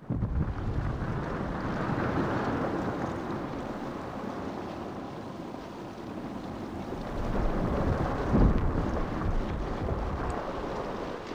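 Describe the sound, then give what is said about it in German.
A snow avalanche rushes down as a dense, continuous low roar with a wind-like hiss, loud and unbroken throughout, swelling slightly toward the end with no voices. “Es ist sehr laut und dunkel. Der Schnee kommt von allen Seiten. Die Lawine ist sehr schnell.”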